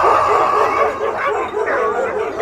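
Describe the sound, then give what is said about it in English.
A dog barks repeatedly in a quick, yapping series of sharp barks that run together without a pause, loud all the way through. “That does it! Shut up, dog! Shut up!”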